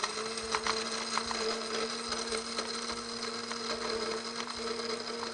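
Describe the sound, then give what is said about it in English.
Electric spice grinder grinding a half batch of seeds into a coarse, flour-like powder: a steady, continuous motor whine with a rattling, gritty buzz of seeds underneath, holding even in level throughout with no talking. “So I'm just going to use this spice grinder and do half a batch at a time. And you want to grind them until that they get the consistency of a powder, like a flour, a coarse flour.”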